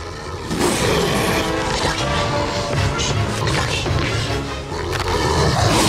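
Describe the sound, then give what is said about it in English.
Monstrous roar from a creature with a giant green head and huge sharp teeth during a fight, a loud, dense, raspy bellow sustained for several seconds. “The force of Milo's roar hurls the man backwards.”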